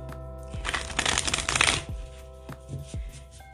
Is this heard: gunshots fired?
no

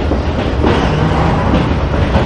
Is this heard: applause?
no

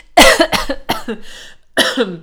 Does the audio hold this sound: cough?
yes

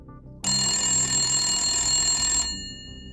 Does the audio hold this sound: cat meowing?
no

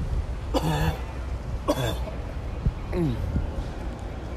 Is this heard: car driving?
no

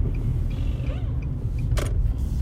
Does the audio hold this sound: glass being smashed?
no

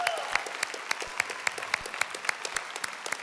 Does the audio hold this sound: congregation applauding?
yes

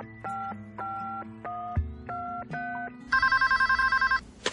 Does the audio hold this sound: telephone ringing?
yes

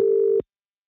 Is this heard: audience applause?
no

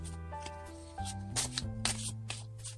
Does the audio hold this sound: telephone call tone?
no

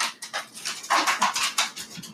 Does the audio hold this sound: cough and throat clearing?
no

